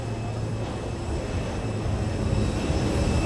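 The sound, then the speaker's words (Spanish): Steady rumble and hiss of an airplane being towed around on the runway, holding an even, constant level throughout with a low hum underneath. “vemos ese avión que han conseguido darle la vuelta, remolcarlo por completo, como había dicho el comandante.”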